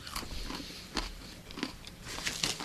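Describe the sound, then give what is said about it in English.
Crunchy food being chewed during a prank phone call show: a run of sharp, irregular crunches and bites, each a brief crackling burst, with no talk over them. “I'm sure everybody loves the crunching.”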